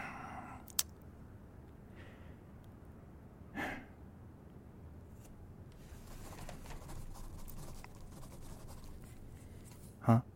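A pen scratches steadily on paper, soft and continuous as someone writes, broken by a sharp click near the start and a brief breathy sound partway through.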